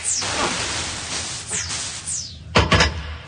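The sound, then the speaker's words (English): An inspection hatch is opened, with a few faint scraping sweeps over a hissing background and then a cluster of heavier metallic thunks and clanks toward the end. “Oh, there's the inspection hatch. You hold them off while I get it open.”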